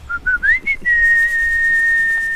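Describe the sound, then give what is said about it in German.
A person whistles to call a flock of trained chickens to mealworms, giving a few short bright notes and an upward-sliding one, then one long, steady, high, held tone, loud and clear. “Es gibt einen Pfiff. Das ist super sinnvoll, wenn man das macht, wenn man die Hühner darauf dressiert. Also im Grunde musst du einfach nur 3-mal diesen Pfiff und 3-mal die Mehlwürmer.”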